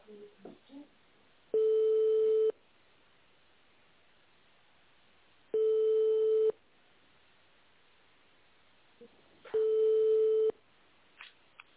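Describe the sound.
Ringback tone of a phone call going unanswered: three short, steady, mid-pitched tones of about a second each, evenly spaced by longer quiet gaps with a few faint noises between them.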